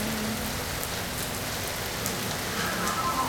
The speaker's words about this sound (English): mind the raindrops falling from the sky,